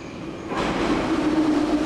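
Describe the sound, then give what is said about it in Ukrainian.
A metro train runs through an underground tunnel in Kharkiv with a steady, dense rumble and hiss that grows louder after a brief quieter start. “Інколи це кілька станцій під землею по Харкову.”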